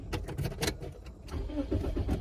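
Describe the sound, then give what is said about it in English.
A car engine cranks and struggles to start, failing to catch; a rough, churning mechanical noise runs through the whole clip with a few stronger bursts. “My car can't start. There we go.”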